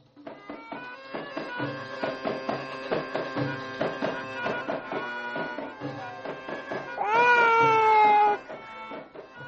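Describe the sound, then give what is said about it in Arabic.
A baby girl cries in an Egyptian radio drama: one short, loud, high wail near the end, after a stretch of softer rhythmic pulsing sound. “ما تسكتي البنت دي يا زناب. الله، هي ما بتبطلش عياط ليه؟ بتعيط ليه دلوقتي؟”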